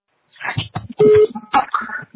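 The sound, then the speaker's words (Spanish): A brief steady beep from a phone voicemail system, marking the start of message recording, sits among short clipped voice fragments. “por favor, grabe su mensaje después del tono”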